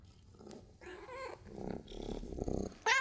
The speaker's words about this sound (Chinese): 这小吃货，不拿猫条还请不动你是吧？是啊，真是只小懒猫